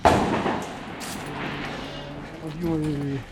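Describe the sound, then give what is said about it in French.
Gunfire in a conflict zone: a single sharp, loud report opens, and then people talk over a low, steady background. “22 jours. Les 22 jours, ça tire comme ça là.”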